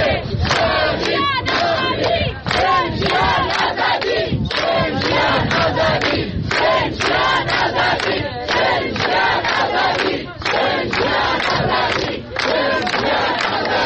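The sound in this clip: Crowd of mourners chanting slogans at Mahsa Amini's grave in Aichi cemetery, Saqqez, with security forces present: loud, strongly rhythmic group chanting in many sharp, evenly spaced bursts that continue without a break.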